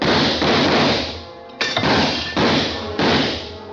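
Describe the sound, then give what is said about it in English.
Gunshots as a desperate woman empties her gun in a dark room in a radio drama: several loud, sharp cracks with broad noisy bursts, coming in an uneven sequence over a few seconds, with no talk over them. “I hugged the carpet while she emptied her gun. I hoped she didn't have a spare.”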